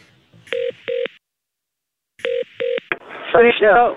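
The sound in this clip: Telephone keypad tones as someone dials hotel reception: two quick beeps, a pause, then two more beeps, followed by a voice talking.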